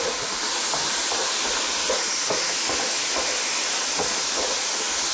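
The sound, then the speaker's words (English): Soy sauce sizzles with tofu in a hot wok, making a steady, dense hiss that stays loud and even from start to finish. “I'm going to keep mixing it around to ensure that all the sauce coats all the tofu very well. I'm going to constantly keep it moving around the wok.”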